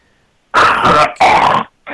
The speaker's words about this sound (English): is spitting up mucus right now to get his singing voice